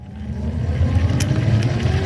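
Motor of a new, speed-limited electric wheelchair with five gears being driven on a test, giving a steady low rumbling hum with faint clicks, running continuously without talk.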